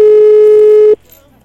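Ringback tone of a telephone on an outgoing call: one steady, buzzy tone held for about a second, then cut off abruptly to near silence.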